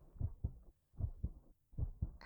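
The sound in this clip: A calm, natural human heartbeat, three slow lub-dub pairs, deep, soft and muffled, evenly spaced with short silences between beats and no voices.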